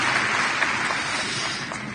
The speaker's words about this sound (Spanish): Démosle un aplauso a Jesús.